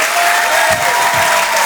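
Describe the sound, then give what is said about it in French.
A comedy club audience applauds loudly, producing a thick, continuous wash of clapping that stays at a steady, strong level from start to finish. “Faites un tonnerre d'applaudissements, s'il vous plaît, pour Alex Vizorek”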